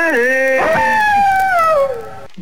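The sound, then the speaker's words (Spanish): A human voice imitates a coyote howl: a single loud wail that dips at the start, then holds and slowly glides downward in pitch for about two seconds before fading. “Hasta acá se dio tu aullido, Coyomá, tan mal.”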